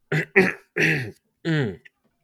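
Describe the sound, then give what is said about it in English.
Throat clearing before making a point: four short, rough, voiced bursts in quick succession, followed by a tiny click, with no talk. “I really want to drive this point home, so I'd make sure to clear my throat first.”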